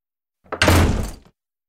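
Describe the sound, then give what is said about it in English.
A loud door slam: a brief knock-like onset, then a heavy, full crash that dies away in under a second, heard alone against silence. “Slam.”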